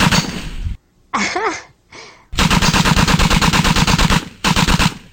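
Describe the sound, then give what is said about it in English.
Machine-gun fire comes in two long, loud bursts of rapid, evenly spaced shots, preceded by a couple of shorter noisy bursts and a brief vocal sound. “I'm afraid I will have to shoot you now. Well... No, really. I am quite certain you have to die now.”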